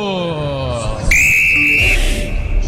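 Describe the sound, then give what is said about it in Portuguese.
A referee's whistle starts the second half of a Copa do Brasil round-of-16 match involving Galo at Arena MRV. It is a single long, steady, shrill blast over crowd noise, following a shouting voice. “Apita pela primeira vez no jogo”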